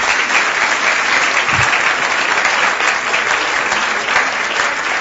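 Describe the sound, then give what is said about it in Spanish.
Audience applause for the speakers at a political forum held in a botanical garden: dense, steady clapping that fills the whole clip at an even loudness, with no talk over it. “Un aplauso muy merecido para nuestras compañeras, amigas.”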